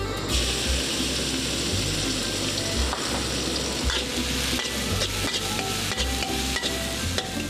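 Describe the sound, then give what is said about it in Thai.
Pounded chili and garlic stir-fry in hot oil, giving a dense, steady sizzle with stirring and scraping that continues without a break throughout. “พริกตำกระเทียมตำผัดไปแล้วต่อด้วยโปรตีนอีกชนิดหนึ่งก็คือหมูสับ”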